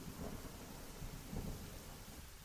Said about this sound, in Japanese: うっそうと茂る森の中で、激しい雨にも阻まれ、すっかり道がわからなくなってしまった。